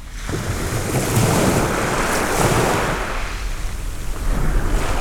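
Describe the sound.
A steady, ocean-like roar of waves is heard in a seashell, a broad rushing hiss that swells and eases slightly throughout without any clear breaks.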